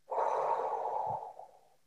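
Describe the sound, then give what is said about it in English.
A deep breath taken during a guided relaxation exercise: one long, steady, airy breath that holds for over a second and then fades away, with no talk. “And take a nice deep breath in and breathe out.”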